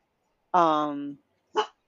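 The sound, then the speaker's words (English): A dog barks at someone outside: one long, drawn-out, tonal bark, then a short, sharp bark after a brief pause. Both are fairly loud and heard alone. “He was barking at the husband outside.”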